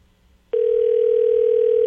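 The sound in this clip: Telephone ringback on an outgoing call: after half a second of near quiet, a single steady mid-pitched tone starts abruptly and holds unbroken to the end.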